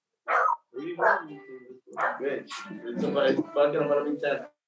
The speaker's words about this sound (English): That's the dog telling you, yo, what's up, bro?